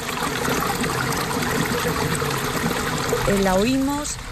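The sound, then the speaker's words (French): Water runs down from the mountain in a vineyard valley in Galicia, making a continuous trickling, burbling stream. A brief voice-like tone rises and falls near the end over the flow. “On entend l'eau descendre de la montagne. Elle est vitale pour la vigne et constitue le mode de vie des habitants.”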